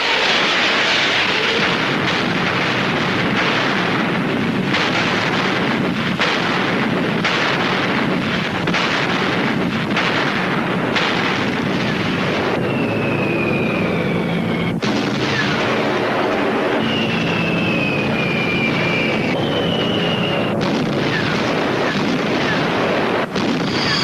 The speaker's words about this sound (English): Zhukov's long-range artillery opened fire on the city. Berlin's outer defenses began to crumble.